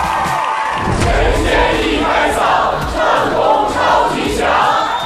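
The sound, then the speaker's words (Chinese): A crowd group at a team competition event shouts its slogan in unison, a loud, sustained wall of voices chanting and cheering for the whole stretch. “首先我们要为大家介绍的是乌英嘎老师身后的扩音器方阵，欢迎你们喊出你们的口号。”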